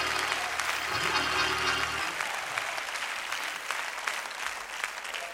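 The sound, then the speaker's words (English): A church audience applauds and cheers in a steady, dense wash of clapping. A low sustained tone hums underneath for the first two seconds. “I want everybody who will make that declaration, make a little noise right now.”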